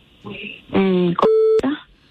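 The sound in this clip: A telephone call is dialed as a short series of clean electronic tones sounds, including one steady beep held briefly at a fixed pitch.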